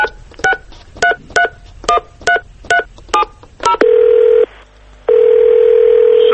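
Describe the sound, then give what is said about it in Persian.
A telephone number being dialed: a quick, evenly paced run of short keypad beeps, then a steady electronic tone that breaks off once and resumes. “خب شماره اینو بگیرم.”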